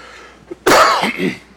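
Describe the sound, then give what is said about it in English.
A loud, harsh cough into the microphone from someone still congested with a cold. One strong burst is followed by a shorter second hack, with a faint click just before, and no talk. “I'm still coughing and congested, so as I cough into the microphone, I just want to apologize in advance and warn you”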